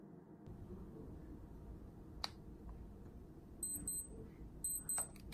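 A Casio digital watch beeps in two short bursts of rapid, thin, high-pitched electronic beeps over a low steady hum, with a single sharp click a little before.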